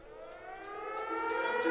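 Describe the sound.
Siren-like horn sample in a freestyle hip-hop beat: a sustained, wailing tonal layer that edges gently upward, with regular crisp ticks on top and a steadily building level.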